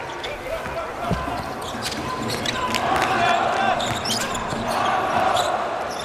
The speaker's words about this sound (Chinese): 拉多萨夫列维奇2米03的身高带球过半场啊，好发啊！